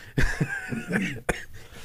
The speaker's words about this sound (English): As they both cough.